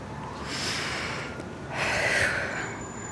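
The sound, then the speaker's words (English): A deep breath drawn in, heard as two broad airy rushes of air, the second one stronger, with no talk over it. “Take a breath”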